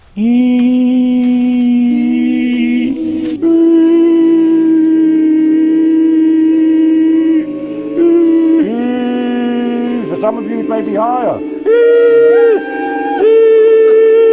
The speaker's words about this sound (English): This is the sound of people learning to yodel in the library at Hazen Union High School on a crappy day in April.